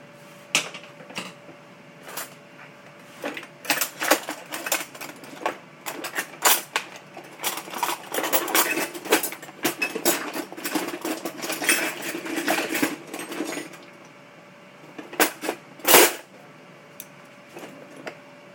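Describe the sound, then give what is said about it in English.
Crinkling and tearing of sauce packets as they are cut open and emptied into a bowl: a long run of sharp clicks, rustles and small clattering knocks in irregular bursts, with no talking. “Just cutting open these packets and getting them ready to slip into a bowl here.”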